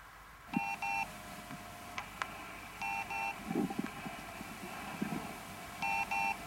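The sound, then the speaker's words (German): A telephone call being connected produces pairs of short electronic dialing beeps that recur several times, with a steady tone and a few sharp clicks between them over a low background hum. “Murray Hill 30093. Ich verbinde.”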